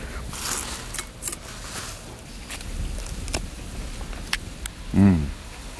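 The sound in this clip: Sugar cane being peeled: a few brief, dry rasping strokes spaced out over steady background noise, followed by a short voiced sound near the end.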